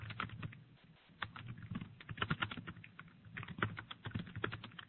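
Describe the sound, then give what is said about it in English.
Fingers type on a computer keyboard, producing many soft, quick key clicks in irregular bursts with brief pauses, fairly faint and with no talk over them. “Type this question here.”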